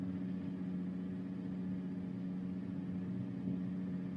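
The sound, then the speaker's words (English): A bus engine drones as the bus pulls over onto the road shoulder. The hum is low, steady and fairly quiet, staying even throughout with no clear revving. “The bus pulls over onto the shoulder, puts on the flashers.”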